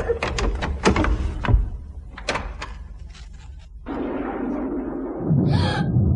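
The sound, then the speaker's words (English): A door is opened: several sharp clicks and knocks come first, then a sustained rushing, scraping sound as it moves, rising briefly near the end. “It's the door. And there's a light under it. I'm going to open it.”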